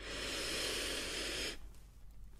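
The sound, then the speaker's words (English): A deep breath drawn in, a steady breathy hiss lasting about one and a half seconds that cuts off abruptly into near silence. “And now I want you to take a nice deep breath in for me like this.”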